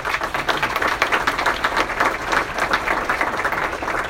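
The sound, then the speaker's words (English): An audience applauds to welcome a speaker to the stage, with dense, steady clapping that carries on evenly for several seconds. “Please give a welcoming hand to Bryn Olson.”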